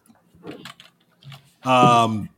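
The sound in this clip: Typing on a computer keyboard: a few quiet, sparse key taps, then a short voiced sound that follows them.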